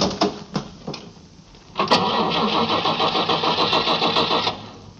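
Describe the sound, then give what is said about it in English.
A car's starter cranks the engine, which fails to catch: a steady run of rapid, even, rhythmic churning pulses lasting about two and a half seconds, preceded by a few sharp clicks and knocks. “Get in and push the starter again. Let's see what happens.”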